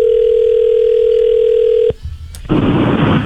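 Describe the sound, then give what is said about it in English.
A steady telephone dial tone hums for about two seconds while dialing a contest winner, then cuts off abruptly with a click, followed by a brief high beep and a rush of hissing line noise. “Yeah, let's give the winner a call here.”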